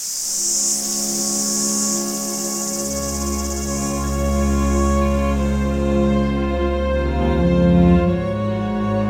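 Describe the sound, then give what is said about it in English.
Cicadas on a farm in summer buzz in a steady, high-pitched drone that cuts out after about five seconds, with sustained tonal music playing underneath the whole time. “You hear that we're on a farm. You hear the cicadas.”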